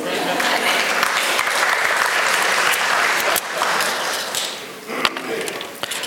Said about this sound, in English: Give them a hand. Don't they look good?